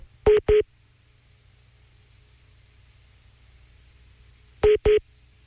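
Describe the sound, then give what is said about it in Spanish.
Telephone dialing tones sound while a three-way call is set up: two short paired beeps, a long gap filled with faint static hiss, then two more paired beeps. “pues si puedes quitar tus manos libres mientras yo hago la llamada.”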